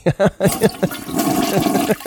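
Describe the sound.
A toilet flushing: a loud, broad rush of water lasting about a second, preceded by short voice-like bursts.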